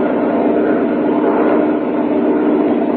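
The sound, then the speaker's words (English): Airplane engine drone as the plane climbs back into the sky after a failed landing approach, a loud, steady and continuous roar that holds an even level throughout with no voices. “the pilot took his plane back into the sky after the approach failed.”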